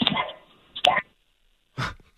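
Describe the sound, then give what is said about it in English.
A dog barking to be let out: a few short, sharp barks separated by brief pauses, loud against an otherwise quiet background. “Dog wants out.”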